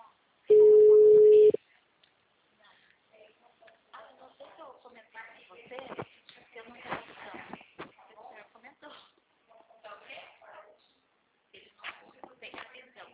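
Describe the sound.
A telephone ring tone sounds once as a single loud, steady tone lasting about a second, followed by people talking over the line.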